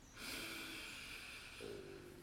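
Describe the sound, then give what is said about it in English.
A slow, deep breath is drawn in during a guided relaxation exercise. The faint, airy inhale lasts about two seconds, with no talking over it. “let's close our eyes real gently. Let's take a nice deep breath in”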